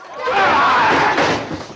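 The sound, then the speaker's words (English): Two men fighting slam against a wall, making a loud, dense burst of scuffling and thudding noise that lasts nearly two seconds without a break. “Bowen punches Sam, then wraps his thick arms around him. They bang against a wall.”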